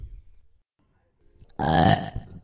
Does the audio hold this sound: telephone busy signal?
no